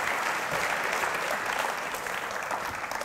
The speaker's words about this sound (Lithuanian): Pasitikime plojimais.